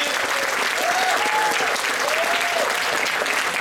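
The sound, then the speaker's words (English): A crowd in a live audience applauds warmly to honor people who performed bravely in front of them. Dense clapping from many hands runs unbroken and fairly loud, with a few cheering vocal whoops rising above it. “we need you guys to give them all a warm round of applause right now”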